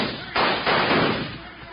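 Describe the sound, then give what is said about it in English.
A gunshot in an old Western drama as Hickok shoots a gun out of a man's hand: a sharp, loud blast, quickly followed by a second burst, then a rough decay that fades. “Oh, thank goodness, Mr. Hickok. You shot his gun out of his hand.”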